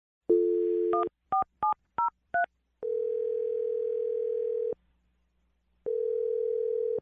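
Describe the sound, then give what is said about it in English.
Telephone dialing: a steady dial tone, then five quick keypad tones, followed by two long ringback tones separated by a pause, clear and alone with no talk. “All right, I'm going to dial the number right now. Here we go.”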